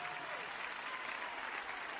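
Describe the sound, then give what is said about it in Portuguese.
A church audience claps during worship, praising God: a faint, even wash of many hands clapping, continuous and unbroken throughout. “Palmas para Jesus, meus irmãos, palmas para Jesus, amém. Pode louvar a Deus com as palmas, meus irmãos, louve a Deus com as palmas.”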